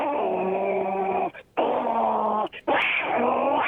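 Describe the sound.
A human voice imitates cats fighting with three drawn-out, growling yowls separated by brief gaps, loud and harsh.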